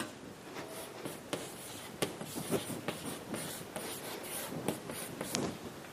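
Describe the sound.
Chalk writing on a board with a very short stick of chalk: many faint, scratchy strokes and taps follow one another in an uneven rhythm, with no voices.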